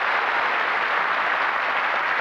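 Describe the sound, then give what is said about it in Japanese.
Audience applause welcoming a performer onto the stage at a live show: an unbroken wash of many hands clapping, dense and steady at one level from start to finish. “素晴らしい拍手で迎えていただきましてありがとうございます。”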